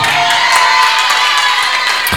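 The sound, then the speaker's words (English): Crowd shouting and cheering: a loud, dense wash of many voices held steady throughout, with a few sharper whoops breaking through. “You see how they are shouting?”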